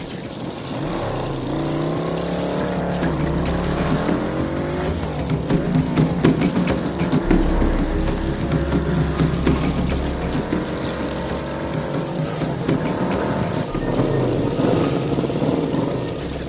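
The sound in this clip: A car engine hums along at a leisurely pace, a steady continuous drone with gentle rises and dips in pitch as it cruises through the whole stretch, no voices.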